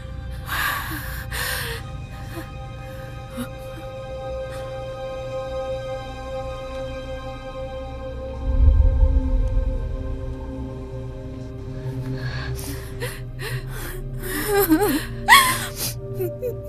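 A person gasping for breath: ragged, breathy gasps with faint whimpering over a steady electronic hum, a sharp burst near the start and a cluster of gasps toward the end.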